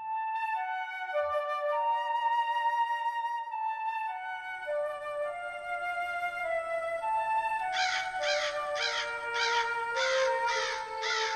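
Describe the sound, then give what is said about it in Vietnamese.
Harsh crows caw outside in a yard at night by a poor thatched house under tamarind trees, a rapid run of rasping calls in the latter part, over steady droning tones. “Tiếng quạ kêu ngoài sân ai oán như trách than điều chi oan uổng”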